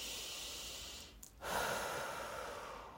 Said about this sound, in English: Take a deep breath.